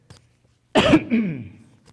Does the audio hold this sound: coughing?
yes